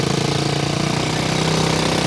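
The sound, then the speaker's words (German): Quad bike engines roaring in the desert, a loud, steady, buzzing mechanical drone that swells slightly toward the end, with no voices. “Und damit geben die beiden Amerikanerinnen und ihre Begleiter Gas und donnern mit ihren Quads durch die Wüste davon.”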